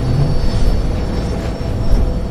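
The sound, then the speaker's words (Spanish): Airplane taking off, a loud steady roar and low rumble that holds throughout, with a thin high whine running over the top. “Solo es el despegue.”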